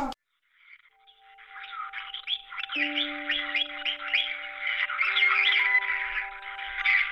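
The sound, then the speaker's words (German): Parrots in a bird shop squawking and chirping in a dense, continuous chatter of rapid, bright calls that grows fuller and louder toward the end. “Mein Vater in seinem Vogelladen. Er bringt den Papageien bei, am Telefon Hallo zu sagen.”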